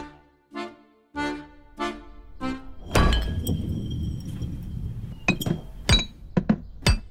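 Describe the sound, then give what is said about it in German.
A glass bottle tips off a table and falls, landing with a loud thunk followed by several sharp, bright glassy clinks and knocks, after a few earlier tonal sounds. “die Flasche war vom Tisch gekippt und ihr zuerst aufs Knie und dann auf den Bauch gefallen”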